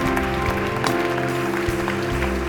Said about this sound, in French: Est-ce qu'on peut les applaudir plus fort?